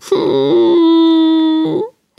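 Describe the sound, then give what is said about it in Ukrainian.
A voice imitates crying, performing the weeping of a painted Easter egg. It is one loud, drawn-out wailing tone held at a steady pitch, wavering briefly at its start and end before it breaks off. “Яєчко почало плакати.”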